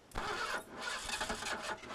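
A car engine cranks and struggles to start, in a car that has probably never been serviced. The starter churns loudly and steadily for about two seconds in a run of rough, uneven pulses, and the engine does not clearly catch.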